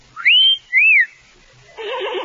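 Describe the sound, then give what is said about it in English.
A person whistles two short, clear, sliding notes: the first swoops upward and holds, the second arches up and falls away. A brief, rougher burst of sound follows after a pause. “I'll think I'll whistle again.”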